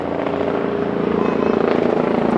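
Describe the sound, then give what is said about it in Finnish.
A helicopter flies overhead in Visby, giving a loud, steady rotor drone with rapid rhythmic blade pulsing and a low engine rumble throughout. “Ja juuri kun puhun, niin tässä lentää nyt joku helikopteri tai mun ylitseni täällä Visbyssä.”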